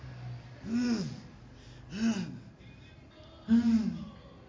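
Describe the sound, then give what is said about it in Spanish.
A man moans and pants in pain as his hands are nailed during a crucifixion: three strained, voiced groans that rise and fall in pitch, with breathy gasping between them. “Se oyen los quejidos de Jesús. Los dientes apretados. El jadeo.”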